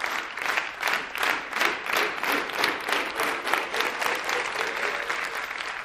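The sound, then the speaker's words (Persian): An audience applauds warmly, and the clapping builds into a dense, sustained wash. Its loudness pulses slightly but stays steady for several seconds before easing a little toward the end. “خانم کوچه گرم تشویق کنید”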